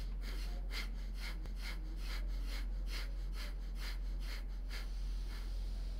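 Many rapid, evenly spaced breaths huff in and out during a guided breathing exercise, each a short hissing burst over a low steady hum.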